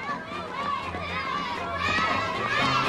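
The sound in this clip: Children shout and scream across the street. Their high, overlapping voices keep up a continuous, lively din at a steady level throughout.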